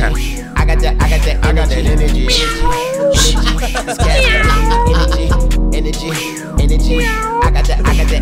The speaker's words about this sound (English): Throw a little meow in there.